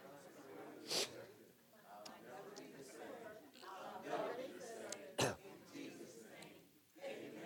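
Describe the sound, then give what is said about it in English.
Coughing and throat clearing from someone who swallowed the wrong way, with two sharp, loud coughing bursts and smaller throat-clearing rasps and vocal noises between them. “That's what happens when you try to get your mind going one direction and your throat trying to swallow in another.”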